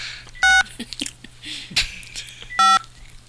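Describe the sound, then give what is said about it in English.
Telephone keypad dialing tones: two loud, steady beeps about two seconds apart, with fainter clicks and brief noises between them. “I dialed the wrong number. See, you were talking to me while I was dialing.”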